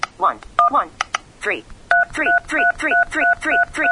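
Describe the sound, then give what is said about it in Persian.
A touchscreen phone plays keypad tones as a number is dialed: short dual-tone beeps, the later ones in a quick, even run, while a person talks over them. “با اون یکی انگشتم ضربه رو صفحه میزنم و شماره رو میگیره.”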